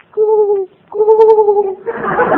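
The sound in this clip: A voice imitating a cooing pigeon gives two drawn-out, steady hooting tones, the second longer and slightly wavering, then a short burst of rougher, noisier sound at the end.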